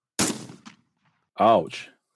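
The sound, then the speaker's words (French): Video game gunfire lets out a sharp shot that quickly decays, followed after a pause by a voice. “Ils arrivent. Un peu. Oh, il tire.”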